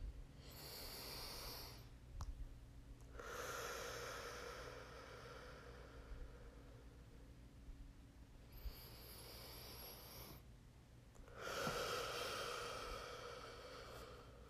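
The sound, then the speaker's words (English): Soft, quiet breaths as a speaker pauses mid-talk: several long airy inhales and exhales with a slightly snorting, hissy edge, separated by short silences, with no speech. “Sorry, I just had to breathe there”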